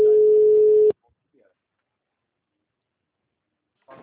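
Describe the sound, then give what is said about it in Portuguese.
A telephone tone on a line after a dropped phone call: one loud, steady, sustained beep lasting just under a second, then abrupt silence. “Moça, ligação caiu.”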